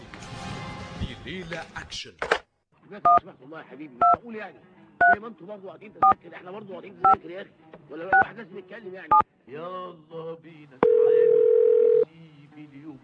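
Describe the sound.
Keypad tones as a telephone number is dialed: about seven evenly spaced beeps with talk before and between them, then a long steady tone.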